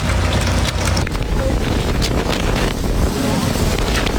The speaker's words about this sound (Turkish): Mekke'deki Nur Dağı'na çıkan kafile kum fırtınasına yakalandı.